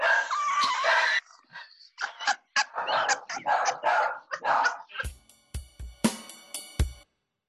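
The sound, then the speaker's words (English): A pet dog barks and whimpers in a run of irregular yips and barks, loud and sharp, ending in a cluster of short, clipped barks. “Was that your bird? That's my dog.”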